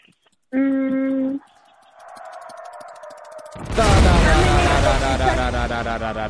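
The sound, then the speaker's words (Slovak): Bomb explosion sound effect in a guessing game: a steady electronic beep, then a brief gap and a wavering whine, followed by a loud blast whose noisy rumble slowly fades. “Bomba vybuchla.”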